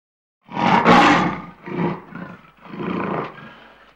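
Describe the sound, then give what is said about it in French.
A lion roars: one long, loud, rumbling roar, then a few shorter grunting roars, and a final sustained roar that fades out. “I can hear a lion. J'entends un lion.”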